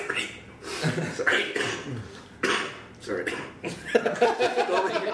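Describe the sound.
A person coughs several times, recovering from a serious cough. Harsh bursts mix with chuckling and throat clearing over about five seconds.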